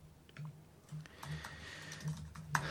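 Typing a search on a computer keyboard: faint, scattered key clicks in an uneven rhythm, with one sharper tap near the end.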